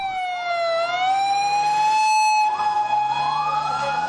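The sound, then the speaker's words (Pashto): An ambulance siren wails as ambulances head to the site of a powerful bombing in Lahore, Pakistan. Its loud, steady tone dips slightly, then climbs and holds, sounding alone without talk. “به دنبال انفجار نیرومند در لاهور، ده ها امبولانس به محل رویداد حرکت کردند.”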